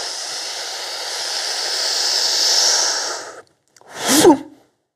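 Breathing during a Shaolin breathing exercise done in a horse-riding stance: a long, steady, airy inhale of about three seconds, a brief silent pause, then one short, forceful exhale.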